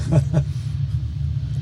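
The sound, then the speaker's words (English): Deep engine rumble of a Daytona Coupe race car pulling away at the start of a race: a steady low drone, with a couple of brief louder surges early on. “Okay, there, that was the Daytona leaving. Yeah. Yes. The start of the race.”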